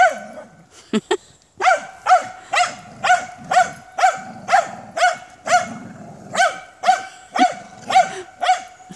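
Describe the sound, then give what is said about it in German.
A dog barking in a steady, rhythmic series of many loud barks, roughly two per second, with a few short irregular yelps at the start. “euer Hund ist auch irgendwo drin, ne?”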